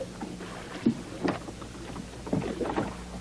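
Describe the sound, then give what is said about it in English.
Oars rowing a boat produce a few soft, irregularly spaced splashing strokes over a constant low rumble of moving air and water. “I love the sound of the oars. It just goes on and on.”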